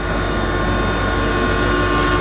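Steady rumble of an express train, a dense continuous roar with a faint rhythmic texture underneath, holding even loudness throughout with no talk.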